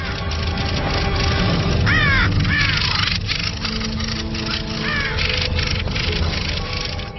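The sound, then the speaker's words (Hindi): Crows caw harshly while ganging up on a black crow, a few loud rasping calls over a steady noisy background. “पै दर पै वार से स्याह कौवा चकरा जाता है और हथियार डाल देता है, लेकिन लड़ाके अपनी भरपूर कुव्वत से हमले जारी रखते हैं”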